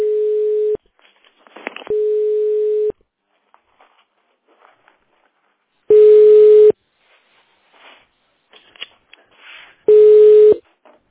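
A telephone busy tone after a dropped call: four steady, mid-pitched beeps at uneven intervals, with faint rustles and clicks in the quiet gaps between them.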